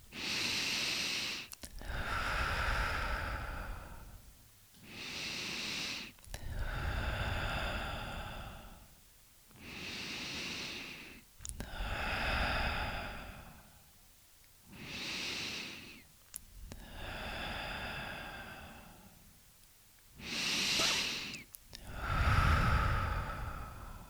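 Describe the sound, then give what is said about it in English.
Slow, deep breathing, in through the nose and out through the mouth, repeated in a steady series of long breaths with short pauses between them, alone with no talk. “Let's take 7 deep cleansing breaths in through your nose and out through your mouth.”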